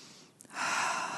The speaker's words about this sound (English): take a deep breath, take another deep breath.